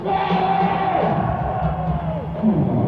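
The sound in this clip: An audience cheering and shouting to welcome the head of Atlantic Records onstage, a steady, loud roar of many voices with a few whoops on top for a few seconds.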